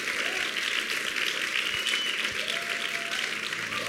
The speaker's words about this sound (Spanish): Give the Lord a mighty hand. Denle al Señor un gran aplauso.